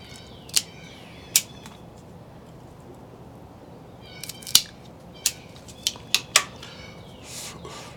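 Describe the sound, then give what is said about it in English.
Cutting the cap off a Casa Cuevas Sangre Nueva Toro cigar makes several sharp, crisp snips and clicks, spaced irregularly and bunched closer together near the end, over a quiet hiss. “Let me go ahead and cut the cap, and let's check the draw.”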